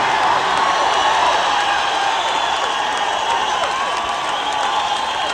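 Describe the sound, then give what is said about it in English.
Cheering and applause from a concert audience in Albuquerque: a dense, steady roar of clapping and crowd noise that holds at an even level for the whole stretch. “All right, Albuquerque, you make a lot of noise, don't you?”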